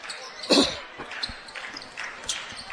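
Basketball dribbling on a court during a high school game between LA and White County, heard as a few dull ball bounces, one more prominent than the rest, amid faint gym noise.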